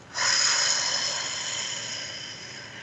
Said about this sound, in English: Let's take a breath together. Take a really deep breath.